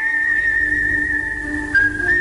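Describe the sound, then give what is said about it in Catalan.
Whistled melody from a solo whistler, with long sustained notes: a steady, clear high tone holds for well over a second, then shifts to a new pitch near the end. “El xiulet que ofereix la primera melodia amb notes llargues.”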